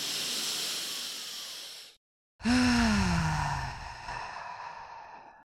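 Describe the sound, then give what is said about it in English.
A slow deep breath taken during a guided breathing exercise: a long airy inhale, a brief silent pause, then a longer sighing exhale carrying a faint voiced tone that fades out, heard alone without talk. “Let's take a nice big deep breath together.”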